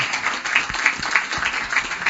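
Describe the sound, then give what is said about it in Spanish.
Audience applause: dense, steady clapping from many hands, fairly loud and continuous for the whole short stretch. “Un fuerte aplauso, la verdad que sí.”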